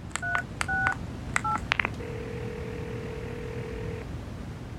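A telephone being dialled to make a call: a few short two-tone keypad beeps and clicks, then a steady, low, continuous tone lasting about two seconds. No one speaks.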